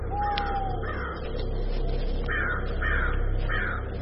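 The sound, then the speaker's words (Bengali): Hoarse cawing of a crow from a fig tree at night: a few harsh, harmonic caws in two bursts, a pair early and then a quicker run of about three, over a steady low background hiss. “বড় একটা যজ্ঞ ডুমুরের ঝুপসি গাছ থেকে একটা কাক বোধহয় স্বপ্ন দেখি জড়ানো কণ্ঠে ডেকে উঠল।”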